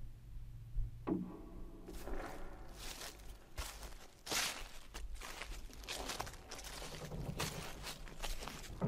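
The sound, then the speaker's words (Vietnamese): Slow footsteps crunch and scuff in a bitterly cold, moss-covered wilderness: a series of unhurried, uneven steps, each a soft dull thud, with no voices heard. “Tiếng bước chân rất chậm đã bắt đầu gần hơn, nghe rõ hơn.”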